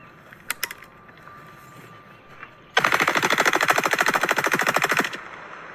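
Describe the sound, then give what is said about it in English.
A machine gun fires at Bud Light beer cans in a loud, sustained burst of rapid, evenly spaced shots lasting about two seconds, preceded by two faint, sharp pops. “Bud Light with machine guns.”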